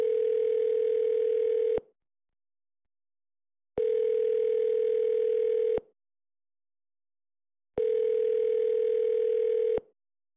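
Telephone tone on a call to a high school's main office line: three steady, mid-pitched two-second bursts, each followed by a gap of about two seconds of silence, with no voices.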